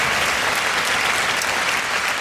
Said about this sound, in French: À votre avis, on vous applaudit pour le prix ou pour le courage de dénoncer